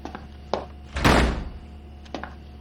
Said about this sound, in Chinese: 门关上。 关门。